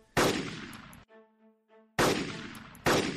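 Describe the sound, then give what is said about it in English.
Three loud gunshots fired at a field of clones, each a sharp crack with a long decaying tail; a short run of soft tonal notes fills the gap between the first and second shots. “Take this gun and go kill yourself, Tiger. Literally nothing would make me happier right now. Okay, Elon, Alex is going to start taking out the clones.”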